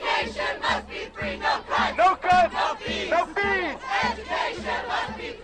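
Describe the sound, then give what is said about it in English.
Demonstrators chant slogans in unison at a San Francisco State University protest over tuition and budget cuts, a loud crowd with call-and-response phrases repeated in a rhythm over a steady low beat. “That's the sound of demonstrators at San Francisco State University.”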